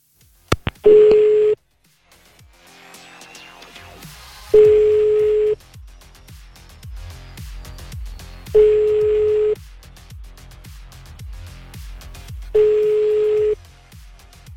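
Ringback tone of an outgoing telephone call: four steady, evenly spaced ringing tones, each about a second long and a few seconds apart, over a faint rhythmic background sound.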